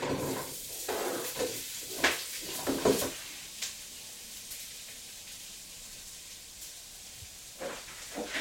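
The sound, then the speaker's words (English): Onions frying in a pan give a steady hiss and sizzle, broken by a few louder bursts of crackle and stirring noise, with no talk. “Right, I'm gonna just fry some onions.”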